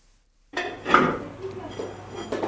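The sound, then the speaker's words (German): Crockery clatters and clinks as a brightly painted plate is washed at a kitchen sink in a family home in Kabul, the knocks and scrapes starting abruptly after a short silence and continuing irregularly. “Sie wäscht einen bunt bemalten Teller ab.”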